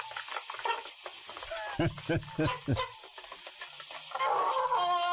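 Chickens being caught on a farm, giving a few short, clucking squawks in a quick cluster amid scuffling and rustling. Another brief call comes near the end.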